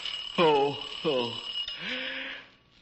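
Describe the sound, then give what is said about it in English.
An alarm clock rings with a continuous high, steady tone while a voice calls out over it a few times, the ringing holding level before fading away near the end. “That isn't the phone. That's the alarm clock.”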